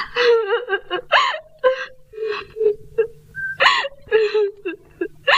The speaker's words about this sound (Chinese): 哎，你不要哭啊！你别哭啊